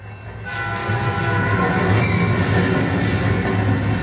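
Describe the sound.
A train passing the Choo Choo Club swells into a loud, steady rumbling roar, carrying a sustained horn tone and a faint clatter of wheels throughout.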